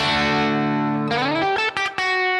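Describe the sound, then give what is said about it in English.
Distorted electric guitar on the bridge pickup, its tone control rolled back slightly, holds a sustained note, then a new note bends upward and rings before a couple of short clipped notes end the phrase. “when I put it down in this bridge position pickup and turn the tone all the way up, it's fairly bright. But if I drop that tone back, I'm just dropping the tone control back just a little bit.”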